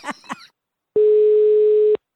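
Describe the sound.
A telephone ringback tone on an outgoing call: after a brief bit of speech, one steady, mid-pitched electronic beep lasts about a second and stops cleanly.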